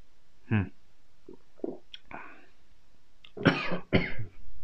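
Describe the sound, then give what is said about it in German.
Coughing after choking on coffee: a few harsh coughs and throat-clearing sounds, quiet at first, then a louder cluster of rough coughs near the end. “Kurz am Kaffee verschluckt, Entschuldigung.”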